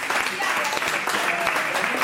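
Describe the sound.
Audience applause rewards a correct answer in a football quiz, a dense, steady burst of many hands clapping at an even level throughout.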